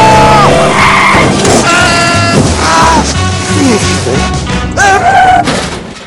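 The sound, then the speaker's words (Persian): Car tyres screech and skid in a crash, a loud, continuous noisy roar with shrill squealing tones. Voices yell over it throughout. “یا خدا بطخ شدم بیچاره شدم چه کار میکنی آقا زنی داغون کردی ماشین ما رو”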